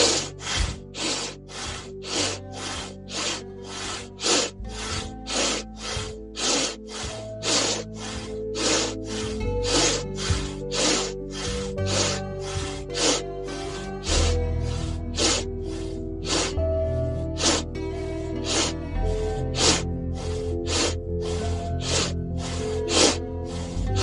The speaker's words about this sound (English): we do 3 more sets of 10. Breath of fire.